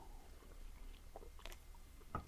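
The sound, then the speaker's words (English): Soft mouth sounds of someone sipping a carbonated 3D energy drink: a few faint gulps and wet clicks, the last one slightly sharper, with no talking. “are you ready to take a drink of 3D? Let's do this. Okay. Drinking now.”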